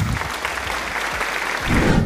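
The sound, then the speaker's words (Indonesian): Short burst of applause from a group of listeners, the clapping dense and steady before swelling a little louder near the end. “give applause”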